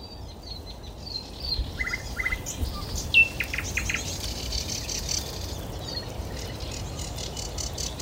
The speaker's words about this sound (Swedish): Och så hörs det sävsångar i bakgrunden här någonstans också. Lite längre bort. Har också kommit från tropiska Afrika alldeles nyligen.